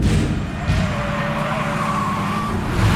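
A car speeds while racing another car, its engine a loud, continuous roar with a rough, broad rushing noise and a faint higher whine throughout.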